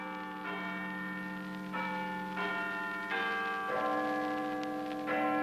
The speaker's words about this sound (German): Guten Abend, hier ist der Londoner Rundfunk. Big Ben hat 8 Uhr geschlagen.